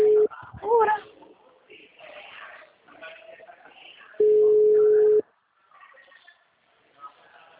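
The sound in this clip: Ringback tone on an outgoing telephone call: a steady single-pitched beep, cut short at the very start, then one full burst about a second long, with a voice talking between the tones.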